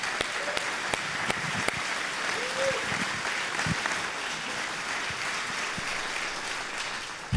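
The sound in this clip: An audience applauds at a gathering after being asked to make some noise for the speaker's parents. Steady, dense clapping fills the whole stretch, with a few sharper individual claps standing out.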